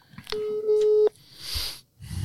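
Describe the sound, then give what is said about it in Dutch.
Telephone tone as a call is dialed to a guest: one steady, mid-pitched tone lasting under a second, followed by short bursts of rushing noise. “ik ga bellen met de mystery guest.”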